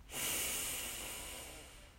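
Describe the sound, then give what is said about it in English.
One long, slow breath during a guided breathing exercise, swelling quickly into a soft airy rush and then gradually fading, heard alone. “So let's begin. Breathe in and out. Breathe in”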